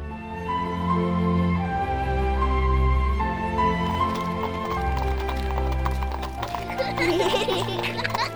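Hooves clip-clop in a steady patter as a horse-drawn carriage sets off, and a horse whinnies among the hoofbeats.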